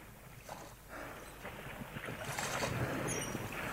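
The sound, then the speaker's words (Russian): A small boat is rowed away from a drifting schooner, with a continuous rush of splashing water mixed with wind noise that grows slightly louder toward the end. “Легли в дрейф. Надо грести.”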